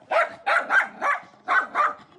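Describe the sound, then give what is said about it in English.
A dog from Ukraine barks in a quick run of sharp, mid-pitched barks, broken by a brief pause partway through. No people are heard. “we have the first time in the history of UNICEF announcing Goodwill Ambassador Dog.”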